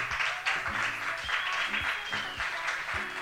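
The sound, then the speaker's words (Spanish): Audience applause at an in-person literary reading event: steady, dense clapping from a crowd that continues for the whole stretch at an even, moderate loudness. “Así que un aplauso para ellas.”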